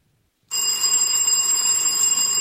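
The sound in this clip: A quiz contestant's answer bell rings once after a silent start, a bright metallic tone that rings on steadily and loudly without fading.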